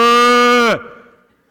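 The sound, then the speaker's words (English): A single loud moo from cattle, a rich, buzzy held tone at a steady pitch that bends sharply downward at the end and trails off into a faint tail. “No, you've heard a cattle moo. That's what a cattle does.”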